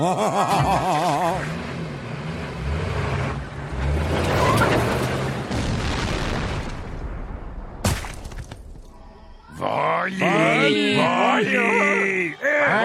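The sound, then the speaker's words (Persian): An explosion blows up a tomb in a video game: a long, loud, noisy roar with cracking and shattering debris, a sharp crack near the end, then voices talking. “این مقبره رو منفجر میکنم، بره بیکارش.”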